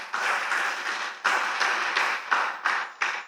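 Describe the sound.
Applause from a church audience during a service: a dense wash of clapping that swells in repeated surges, steady and full throughout, with no clear voices standing out.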